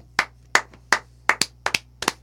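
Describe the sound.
Sparse hand clapping as a round of applause for a show member: a handful of sharp, separate claps in an uneven rhythm, heard alone against a faint low hum.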